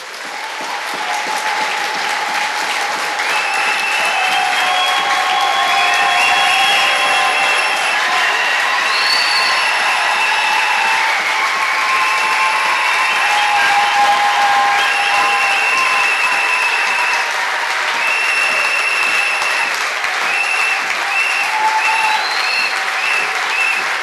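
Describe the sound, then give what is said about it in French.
Congregation applause at a church gathering as worshippers clap for the Lord: dense, steady clapping that holds loud and unbroken for the whole stretch, with no pause or clear peak. “Frères, brethren, je veux qu'on acclame le Seigneur. I would like us to clap for the Lord.”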